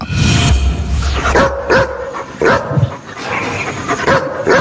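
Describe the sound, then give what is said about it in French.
A dog barks several times in loud, sharp bursts, with higher yips and whining tones between the barks, and no people talking. “je dirais quand même un aboiement de chien.”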